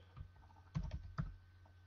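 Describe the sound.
Faint typing on a computer keyboard: a few scattered key clicks, with two small clustered bursts standing out over a quiet low hum.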